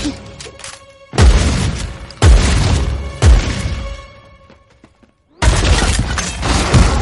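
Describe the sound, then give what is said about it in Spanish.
Loud gunfire and heavy crashing impacts as a shooter fires at a door during an action fight scene. Four big bursts strike, each decaying into rumbling debris, with a brief quiet gap before the last. “Otro dispara a la puerta.”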